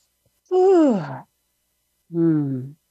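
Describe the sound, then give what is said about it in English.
Two long, deep voiced breaths taken during a guided self-love relaxation exercise. Each is an audible sigh with a low tone that falls away, the first a bit longer, and a second of silence separates them. “So let's take another deep breath in and out, because that can feel kind of heavy.”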